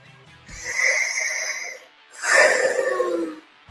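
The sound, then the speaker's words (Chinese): Deep, wheezy breathing from a woman who has just removed her spacesuit helmet inside a spaceship: two long, noisy drawn breaths, the second louder and rougher than the first. “她第一个摘掉宇航服的头盔，然后放纵的呼吸了一口飞船内部的空气。”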